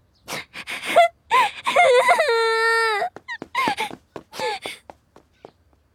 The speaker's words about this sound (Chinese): 宁荣荣的脸色看上去有些惨白，突然他哇的一声哭了出来，扭头就朝自己的宿舍跑去。